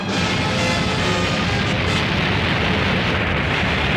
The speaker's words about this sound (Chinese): 液体氦爆炸，货柜里面装的好像是液体氦